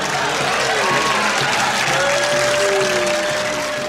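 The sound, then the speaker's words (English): Applause played as a sound effect: a steady, dense wash of clapping from a crowd fills the whole stretch at an even loudness. “thanks for putting in that applause cue as well”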